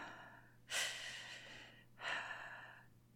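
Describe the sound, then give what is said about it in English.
Deep breathing from a person being calmed: two long, breathy inhalations, each with a sharp onset and a slow taper, separated by a short quiet gap. “Just breathe. Focus on deep breaths.”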